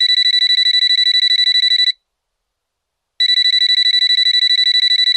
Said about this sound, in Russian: В ее мысли ворвался звонок. На столе запищал, запрыгал мобильный.